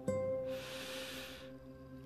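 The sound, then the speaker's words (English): A single deep inhale, a steady airy hiss lasting about a second, heard over soft sustained background tones. “Become one with the breath. Deeply inhale”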